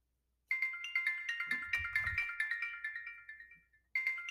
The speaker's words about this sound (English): So, excuse my phone was ringing.